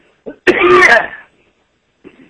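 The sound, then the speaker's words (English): A single harsh cough with a rough, throaty, voiced tail, loud and on its own, with faint brief throat noises just before and after it. “Sorry, let me just have one more cough and then hopefully I can come back.”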